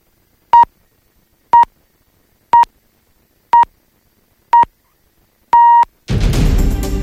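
A Polish radio time signal marks six o'clock: six clean beeps, evenly spaced a second apart, the first five short and the sixth held longer. A loud burst of other audio begins right after the final tone.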